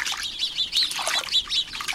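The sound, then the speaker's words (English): A flock of small, sociable birds chatters in a bush. Many quick, high chirps and tweets overlap in a busy, continuous stream at a moderate level, with no voices. “Sometimes a bush they've settled in seems to be alive with their chatter, even though you can't see a single bird.”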